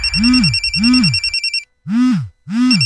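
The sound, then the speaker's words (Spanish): A telephone rings loudly in a repeated pattern of trilling electronic tones: two rings close together, a brief silence, then two more rings. “¿por qué no contestan? ¿Ah? ¿Qué no ves que Meli Mar te está llamando?”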